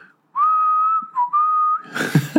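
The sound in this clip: A person whistles a tune while walking along a promenade, holding long steady notes with a brief dip and return in pitch. The whistling ends in a short burst of noisy rustling.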